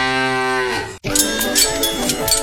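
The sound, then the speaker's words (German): A cow moo from a mooing Müllermilch milk bottle: a single sustained, low, harmonic moo lasting about a second, then a brief break followed by busier, brighter sound. “Finde eine der noch 4 verbleibenden Muhenden Müllermilchflaschen und gewinne 50.000 Euro.”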